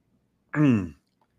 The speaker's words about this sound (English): excuse me, I'm just choking up on my throat here a little bit.